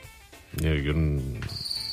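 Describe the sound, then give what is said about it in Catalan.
Crickets chirp in a steady, thin high trill that stands out toward the end, following louder voice sounds. “Mira, han sortit uns grills.”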